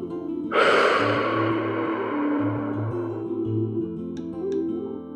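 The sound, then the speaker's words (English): A single deep breath, drawn in sharply and then fading slowly as a long, airy exhale over soft, steady tones. “Take a deep breath in and slowly exhale.”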